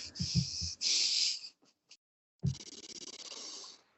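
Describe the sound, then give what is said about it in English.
Deep breaths drawn in through the nose, heard as airy, hissing rushes of air. Short bursts come with a few faint clicks, then a pause, then a longer, fluttering inhale. “just try and take a deep breath in with your nose. I'm not talking like your mouth wide open.”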